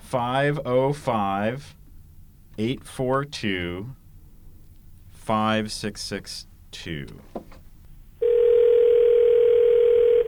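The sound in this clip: Telephone dial tone as a phone is picked up to dial a number. Voices talk first, then a loud, steady, unbroken tone holds through the final two seconds.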